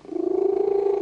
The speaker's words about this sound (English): news report on the cat, and the purr sounds like this.